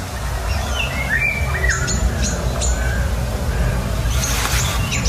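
Golden orioles, a family group flying from tree to tree, give fluting whistled contact calls and brief chirps, fairly faint above a steady low rumble of background noise.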